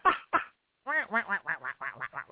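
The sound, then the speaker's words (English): A person vocally imitates a duck quacking: two short nasal quacks, a brief pause, then a quick run of many buzzy, harmonic quacks in a steady rhythm. “Duck. Quack, quack, quack. Duck.”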